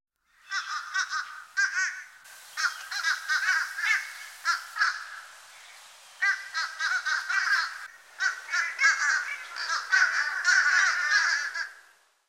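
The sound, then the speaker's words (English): Nasal, clipped caws from a fish crow come in many quick runs of short calls. Several busy bursts are broken by brief gaps, and the calls sound fairly loud and clear over a quiet background. “Fish crow.”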